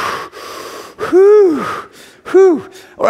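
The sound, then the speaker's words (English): A person taking deep breaths, with two loud voiced gasps that each rise and then fall in pitch, following a stretch of soft breathy noise. “Let's just take a big breath.”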